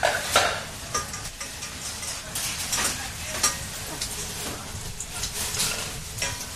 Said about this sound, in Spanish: Pues como todos los jueves, nos metemos hasta la cocina de El Chalet en la calle Santa Teresa de Jesús número 25.